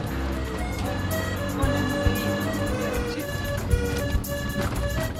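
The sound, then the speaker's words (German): A car jolts along a badly potholed road running parallel to the Chitravati river. Its steady, dense rumble is broken by a few heavier thuds as the wheels hit holes. “Wir fahren jetzt parallel zum Chitravatri und die Straße ist eigentlich nur noch zu ahnen. Schlagloch an Schlagloch.”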